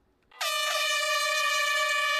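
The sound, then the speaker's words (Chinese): A loud air horn signals the start of a science orienteering challenge race in a park. It comes in suddenly and holds one steady, brassy, harmonic-rich blast to the end, with no voices. “5月30号上午9点，随着一声鸣笛，科普定向挑战赛正式开跑。”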